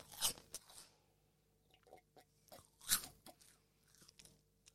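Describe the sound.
Crunchy chewing of a very spicy food: two loud, sharp crunches stand out among several fainter bites and chews, with no talk over them.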